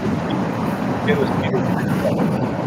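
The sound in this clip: A train rumbles behind a man who is talking, a steady low roar that holds at an even level under his voice throughout.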